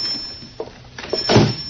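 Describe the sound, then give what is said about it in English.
A door being opened, heard as a few brief, soft knocks and scrapes that build to a fuller, louder rustle near the end, with no voices. “Me open door”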